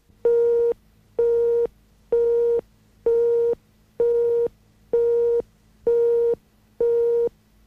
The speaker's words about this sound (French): vous pouvez laisser votre message après le bip sonore.